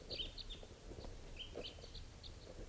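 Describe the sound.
A small flock of birds sits at the top of a tree, one of them an adult male. A few faint, high, short chirps and calls are scattered over a low, steady background hiss.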